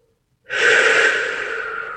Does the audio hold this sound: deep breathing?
yes